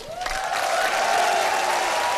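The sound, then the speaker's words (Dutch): Crowd applause at an ice rink during a national speed skating championship, a steady wash of clapping with a sustained high tone running through it. “Ja, terecht grote applaus.”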